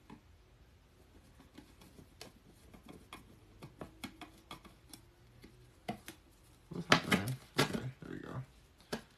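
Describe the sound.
Rapid clicking of a screwdriver driving a screw while a cabinet is assembled: many light ticks, with a denser, louder burst of clicks near the end and a voice faintly present.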